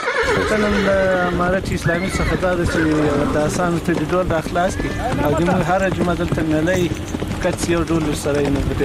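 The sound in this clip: A horse brought to a sango-striking match in Qarabagh district, Ghazni, whinnies over and over in wavering, high neighs, with some hoof clip-clop beneath. A man talks continuously over it.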